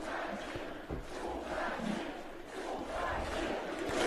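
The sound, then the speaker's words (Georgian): Protesters at a demonstration in Belarus chant a slogan together. The loud, dense roar of many voices swells in rhythmic waves and grows stronger toward the end. “წადი ამ შეძახილებს სკანდირებდნენ საპროტესტო აქციის მონაწილეები.”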